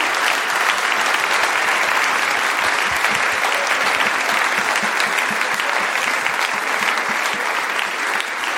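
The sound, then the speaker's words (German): Big round of applause from a stage show audience welcoming a guest, dense and steady from start to finish, loud with no break or swell, thick clapping alone with no clear voices on top. “Und wir begrüßen mit einem Riesenapplaus bei uns auf der Bühne Diana!”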